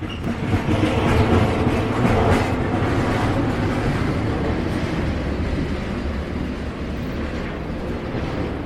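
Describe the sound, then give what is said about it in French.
A long freight train rolls steadily along the rails, a dense continuous rumble with a faint rhythmic clatter of wheels over joints, loud at first and easing slightly as it continues. “j'entends encore le roulement du train sur les rails vides”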